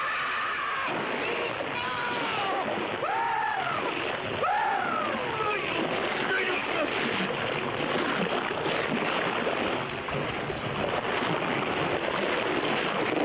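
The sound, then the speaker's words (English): Sea waves wash around a sinking yacht in a loud, unbroken surge, with a few brief voiced cries near the start. “As the yacht sinks, men fight for their lives. The tip of the mast sinks beneath the waves.”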